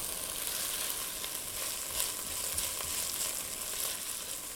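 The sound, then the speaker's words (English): Green chili, jalapeno and red Thai chili are stirred in a frying pan, giving a steady, dense hissing sizzle with faint stirring accents throughout and no voices. “Now I'm gonna go ahead and add the chilies, the green chili, my jalapeno here, and my red Thai chili. Stir those in.”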